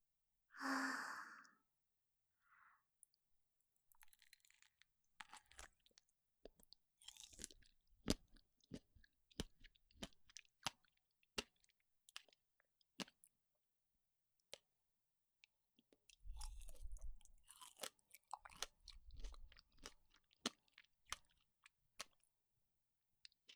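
Quiet chewing of strawberries and blueberries: many soft, wet crunching and clicking mouth sounds spread irregularly, with breathy sighs at the start and again midway.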